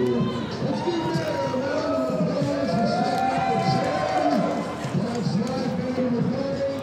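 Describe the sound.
Crowd chatter rises from a retro TV giveaway booth, with many overlapping voices talking and calling out at a steady, fairly loud level.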